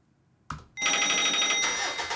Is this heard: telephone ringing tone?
yes